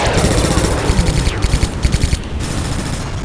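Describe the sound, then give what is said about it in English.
Spaceship point defense batteries fire a dense hail of microkinetic projectiles at incoming torpedoes, a loud, continuous rattling barrage of rapid gunfire-like bursts. “Multiple point defense batteries came to life, filling the space around her with microkinetic projectiles that easily shredded the incoming Ryle torpedoes.”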